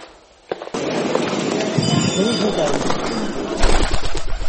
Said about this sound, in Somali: fiiri fiiri fiiri shimbirtaa madow siday u laafyaanayso u babinayso baalasheeda waxay u egtay barbaroolay